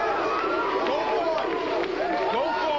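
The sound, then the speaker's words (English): The trademark whoop of the studio audience at The Arsenio Hall Show, a late-night talk show: a loud, unbroken crowd roar of many voices whooping together, with wavering, rising and falling pitches layered throughout. “Listeners of a certain age will remember that sound, the trademark audience whoop from the old Arsenio Hall show, the late-night talk show which ran from 1989 to 1994.”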